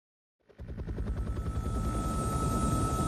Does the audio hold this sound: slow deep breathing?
no